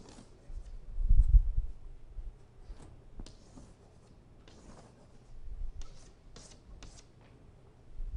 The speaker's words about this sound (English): So, let me draw arrows up here, please, on this.